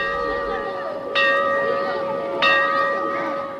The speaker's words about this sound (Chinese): 上课铃响了